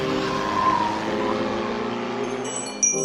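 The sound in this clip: A car accelerating hard with its tires squealing. A loud, sustained screech rides over the engine roar for about three seconds.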